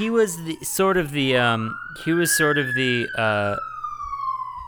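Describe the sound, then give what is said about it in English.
A police siren passes while people talk over it, its single long wailing tone climbing and then slowly sinking in pitch. “we'll wait for the siren.”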